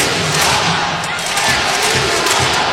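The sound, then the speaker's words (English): Hockey fans in an arena voice their displeasure at the officials in a loud, sustained wash of crowd noise that swells slightly throughout. “Fans voicing their displeasure, but for what it's worth, Kirk McDonald not really putting a whole lot of energy into the discussion with the officials.”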